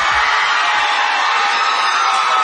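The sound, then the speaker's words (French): A crowd cheering and applauding the winner of a music competition, a dense, steady roar of clapping and shouts held at a constant loud level throughout. “Et la foule en délire qui applaudit la grande gagnante de la 30e édition des Francouvertes.”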